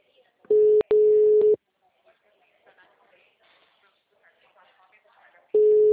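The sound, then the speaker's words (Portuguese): A telephone ringback tone sounds as a call is placed: two long bursts of a steady, low, buzzing tone near the start, then quiet with faint talk, and the tone returns at the end. “Já entendeu? Tô ligando, amiga.”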